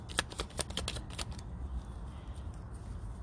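Oracle cards shuffled from a deck, a quick run of many crisp riffling flicks packed into the first second and a half, then fading to a soft, steady hiss with no voices.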